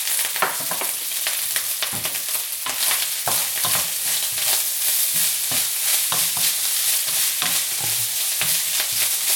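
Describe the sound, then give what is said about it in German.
Pan-fried scrambled egg sizzles in a hot pan while being stirred, a steady frying hiss broken by many sharp scraping strokes of the utensil, with no talk. “Dann mache ich wieder ein Rührei, ein angebratenes, und das haue ich dann einfach hier mit rein.”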